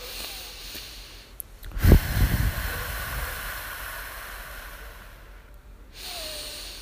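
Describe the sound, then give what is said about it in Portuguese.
A deep breath is taken during a guided breathing exercise: a sharp, airy burst of breath followed by a long, fading rush of air, with quieter breathy noise around it. “Agora vamos respirar três vezes olhando para o ponto.”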